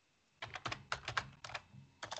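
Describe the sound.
Typing on a computer keyboard: quick clusters of crisp key clicks separated by brief pauses, alone without talk.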